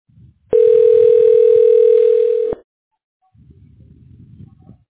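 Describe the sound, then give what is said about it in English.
A telephone dial tone sounds while a call is being dialed: one loud, steady, even-pitched tone lasting about two seconds that cuts off abruptly, with faint low noise before and after. “Now, I'm dialing the agent.”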